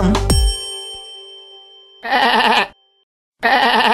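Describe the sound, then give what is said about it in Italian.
Sheep bleating: a single bright bell ding rings out and fades, then two wavering, nasal bleats follow, the second cut off at the end. “Pecora.”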